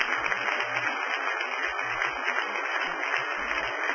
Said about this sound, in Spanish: Den un aplauso al Señor en esta noche, amado.